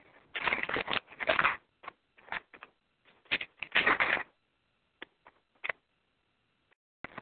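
Folders and papers are handled in bursts of crackling, rustling shuffles separated by silences, ending in a few brief, isolated taps.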